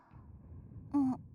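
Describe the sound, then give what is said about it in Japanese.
A single yawn from a tired person by the beds, a breathy voiced sound lasting about a quarter second with a slightly falling pitch, loud against a quiet, low background hum. “あくびしてる。そんなに眠いの？”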